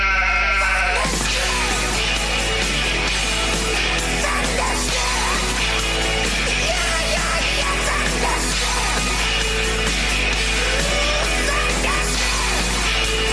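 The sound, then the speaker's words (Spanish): A flock of sheep bleats loudly, with many overlapping calls that continue throughout without a pause. “Las ovejas se están rebelando. No me digas. Dios mío. Por aquí hay algo. El rebaño está a punto de llegar.”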